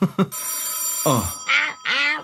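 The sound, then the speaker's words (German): A telephone rings with a bright, high electronic trill held for about a second, then voices speak while a faint tone lingers. “Geh nicht ran. Wir haben Urlaub. Ich kann doch das Telefon nicht einfach ignorieren.”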